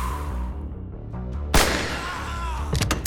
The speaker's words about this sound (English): With the automatic prowess that only hours on the shooting range can bestow, he took aim and fired back at the hand.